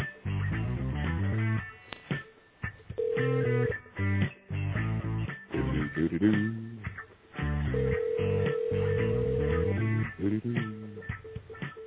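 Telephone ringback tones on a call that rings out to voicemail: two long, steady tones over a narrow, phone-line sound, with muffled line audio filling the gaps throughout.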